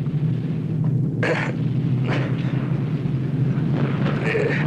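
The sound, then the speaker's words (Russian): A German tank fires its cannon and the shell bursts nearby during a wartime battle scene. A few crackling booms punch through a continuous low rumble of engines and battle noise. “Танк стреляет, снаряд падает в паре метров.”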